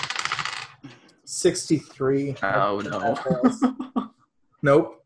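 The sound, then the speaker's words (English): Dice clatter in a brief, sharp rattle during a tabletop horror role-playing game session, with several people talking around it. “I'd like to find my dice. One moment. There we go.”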